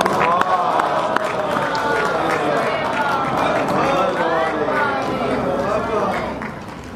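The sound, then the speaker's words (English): An audience loudly chanting salawat, blessings upon the Prophet, at a Shia–Sunni interfaith unity conference: many voices in unison, full and sustained, easing off slightly at the end. “Please welcome him with the loudest of salawat.”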